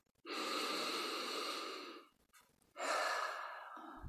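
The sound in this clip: A deep breath drawn in through the nose, then a slow breath out: two long, steady, airy rushes separated by a short pause, with no talk.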